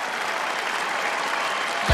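Dense, steady applause from the Beach Boys as members of Lady A bow to them at a tribute show, even throughout and ending on a short low thump.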